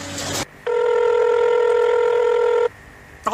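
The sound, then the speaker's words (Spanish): A telephone rings for an incoming call, giving one loud, steady electronic ring of about two seconds. Brief bursts of noise come just before and just after the ring. “Justamente me está entrando una llamada del ingeniero a cargo del proyecto. Debo atenderlo.”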